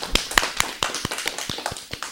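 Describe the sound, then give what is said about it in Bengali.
Sparse, evenly spaced hand claps greet a young child after a poem recitation, each clap separate and sharp, fairly faint overall. “আমাদের ছোট্ট বন্ধুর জন্য এবারে জোরে একটা করতালি হয়ে যাক।”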